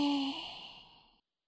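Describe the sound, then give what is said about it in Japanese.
A long exhale during a deep-breathing exercise, one breathy out-breath that begins fairly strong and fades gradually to silence after about a second. “吐いて。”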